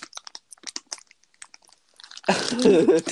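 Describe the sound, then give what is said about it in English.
Light tapping on a microphone gives many quick, irregular, clicky knocks with small gaps between them, followed by a voice speaking. “What is that? Plastic. What the hell is that? Me tapping on the mic.”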